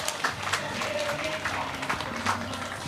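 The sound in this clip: An audience claps at a May Day event before a speech by the parliamentary speaker, a steady patter of many hands with a voice talking over it.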